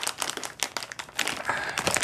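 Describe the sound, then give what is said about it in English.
Crinkling and rustling of tough plastic packaging being torn open in a kitchen: a dense run of sharp, crackling bursts that keeps going for about two seconds, moderately loud, with no voices. “This packaging is pretty rough. I could get the scissors.”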